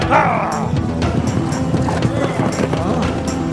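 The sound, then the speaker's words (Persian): Horse hooves clip-clopping in a steady rhythmic pattern of footsteps, with people talking over the hoofbeats. “صدای پای اسب مأمون هست، مراقب باشید.”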